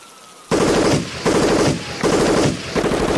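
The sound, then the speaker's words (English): Police gunfire inside a building: four sharp bursts of rapid automatic fire, loud and harsh, each lasting roughly half a second to a second, separated by brief pauses. “The police just opened fire in the building.”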